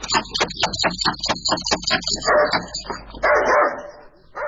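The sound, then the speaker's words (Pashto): A dog barks at a house door in a fast run of many sharp, loud barks. Harsher, noisier bursts follow and last to the end. “تاسو بد سپی لري”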